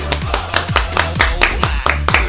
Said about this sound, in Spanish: Vaya, 8 de marzo, bravo, un aplauso.